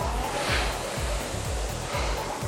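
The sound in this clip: Air flywheel of a rowing machine whooshes through a stroke, a steady rushing hiss with recurring low, pulsing rumbles.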